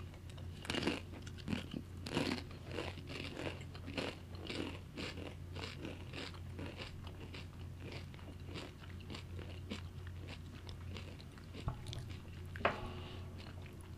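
Someone bites and chews a very hot chip coated in black seasoning, making many crisp crunches in an uneven rhythm. The crunching is faint, with a low steady hum underneath.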